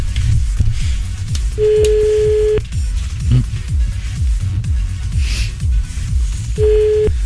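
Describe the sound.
A telephone ringback tone sounds while a call is being placed. Two steady, mid-pitched beeps about five seconds apart play over loud rhythmic background music with a thumping beat.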